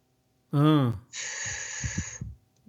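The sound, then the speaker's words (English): A voice imitates a fast, forced out-breath: a short voiced sound, then a strong, breathy hiss of exhaled air lasting about a second before trailing off. “when you breathe out as well, you don't want to go like,”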